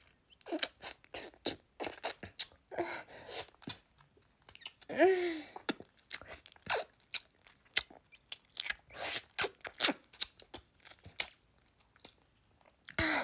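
Someone eating and licking something sweet: many quick, irregular, moist smacks and crunchy chewing bursts, with a few longer slurping sounds, fairly faint and with no talking.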